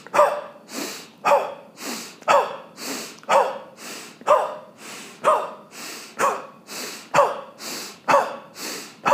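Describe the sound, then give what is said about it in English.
Forceful breaths in a breathing exercise, each sharp, loud exhale followed by a softer inhale, repeating in an even rhythm of about one per second. “All right, let's try just 10 breaths. Nice inhale to prepare. Exhale, prepare. Here we go, 10 times.”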